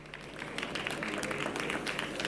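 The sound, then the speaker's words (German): Applause from an audience welcoming a speaker at a talk on copyright reform: a steady, fairly faint crackle of many hands clapping that lasts throughout, with no voices. “Ein kleiner Applaus bitte für unseren Sprecher.”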